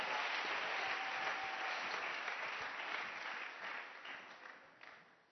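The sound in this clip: A church audience applauds the Lord with a dense, steady patter of clapping that stays even for several seconds and then slowly fades toward the end.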